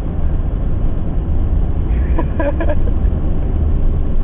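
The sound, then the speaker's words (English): Steady, dense low rumble and hiss of cars crawling in bumper-to-bumper traffic, continuous and even throughout. “We're in bumper-to-bumper traffic, so, you know, it's bumpery. And we're stuck”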